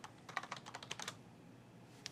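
Soft clicking on a computer keyboard: a quick run of keystrokes, a short pause, then one final press of the enter key.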